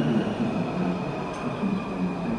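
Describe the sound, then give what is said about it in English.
A subway train at a metro stop gives a steady, loud rumble with a faint high whine running throughout. No talking is heard over it. “Here you have our U Street Metro stop.”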